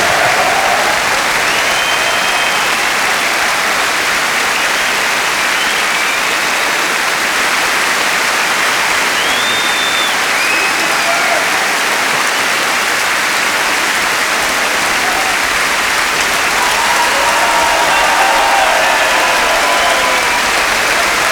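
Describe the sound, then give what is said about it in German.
Sustained audience applause for a performance by the Little Angels of Nagasaki: a long, even wash of dense clapping that stays loud and steady throughout. “Geben Sie einen Applaus.”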